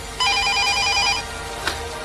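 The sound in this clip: A telephone rings once in a single burst of about one second, made of bright, rapidly pulsing tones. A soft click follows near the end, with quiet background hiss throughout.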